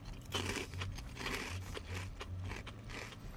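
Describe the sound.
Crisp crunching and chewing of squid tempura dressed with lemon, with several irregular bites and crackly chews in a steady run and no talking.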